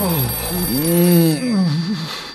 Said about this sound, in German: Das ist das Telefon. Dann geh doch endlich ran.